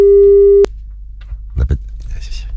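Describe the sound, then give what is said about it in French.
A telephone tone on a French radio call-in line: one loud, steady, mid-pitched tone holds for about half a second, then cuts off abruptly, followed by faint rustling and low handling noises. “Attention, on appelle.”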